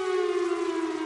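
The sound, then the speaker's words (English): An old Chrysler air raid siren, a Cold War-era civil defense warning siren still standing in Seattle, wails with a loud, steady, sustained tone, a strong low pitch layered with higher harmonics and no audible rise or fall. “And this noise, it's the sound of one of those old Chrysler air raid sirens,”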